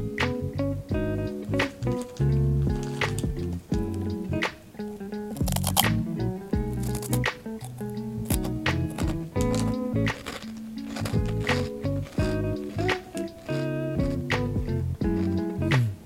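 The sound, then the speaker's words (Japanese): Crunchy chewing while someone eats a limited-time snack, with many crisp bites and crackling crunches in an irregular rhythm, fairly loud and close. “一応食べてみますけれども咀嚼音がちょっと苦手な方はお耳を塞いでくださいよ”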